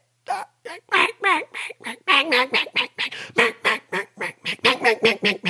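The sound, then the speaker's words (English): A human voice imitates a hen mallard duck with many rapid, raspy quacks. They come in quick bursts with brief gaps and are fairly loud, with no other sound. “That's a hen mallard.”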